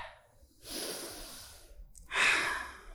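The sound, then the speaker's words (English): Two long, deep breaths during a group meditation, a breathy airy draw followed by a pause and a second, louder breath. “Take a couple of deep inhales.”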